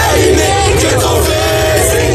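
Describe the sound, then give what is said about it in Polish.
Crowds in France greet Pope Leo XIV with loud, continuous cheering and yelling, a thick roar of many voices with whoops rising through it, sustained at high volume. “Wszędzie, gdzie pojawi się Leon XIV, witają go tłumy.”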